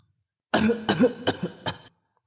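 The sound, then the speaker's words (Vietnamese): An elderly woman gives a dry, hacking cough in a small, narrow room, four sharp bursts in quick succession, loud and alone against silence. “Một tiếng ho khô khốc quen thuộc vang vọng trong căn phòng nhỏ hẹp.”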